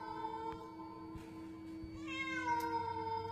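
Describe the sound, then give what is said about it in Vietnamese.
A stray cat meowing at night in a garden: faint, drawn-out yowling cries with a steady, tonal quality that stretch across several seconds, with no voices. “Gớm nghe tiếng mèo kêu trong đêm đến rợn hết cả người.”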